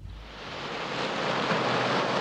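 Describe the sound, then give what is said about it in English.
Ships ploughing through a rough sea give a continuous, roaring wash of water and wind. The broad rushing noise swells slightly and stays dense throughout, with no speech. “The ships plough through a rough sea.”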